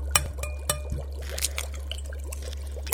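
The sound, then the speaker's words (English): Liquid poured from a tube into a mixture makes a brief, soft trickle with a few small clicks over a low, steady hum. “We'll just open the tube... add this to the mixture.”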